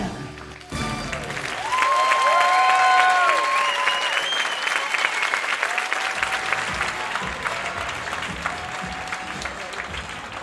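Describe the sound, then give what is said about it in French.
An audience gives an ovation at the end of a stage show: loud, dense applause breaks out after about a second and holds steady, swelling, then easing slightly toward the end. “spectacle est terminé. C'est l'ovation. Les spectateurs sont conquis.”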